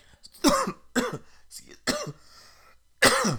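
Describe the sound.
Choking coughs, several loud, rough bursts spaced unevenly with short gaps between them.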